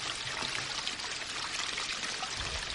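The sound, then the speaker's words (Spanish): Water pours from a spout into a clay jug at a village fountain in a steady, unbroken rush that holds an even level from start to finish, with no voices. “ya le toca el turno a ella para llenar su cántaro. Lo coloca bajo la salida de agua”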